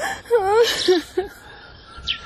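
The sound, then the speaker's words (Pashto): A woman crying, with wavering, high-pitched sobs and whimpers and a sharp breathy gasp, followed by quieter catches of breath. “مورې مه ژاړه”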